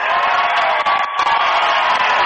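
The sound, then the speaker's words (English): A packed gym crowd cheers loudly at a final game. A dense, sustained roar carries on almost unbroken, with a brief dip near the middle. “Well, this crowd's really getting into it. We have a packed gym for this final game.”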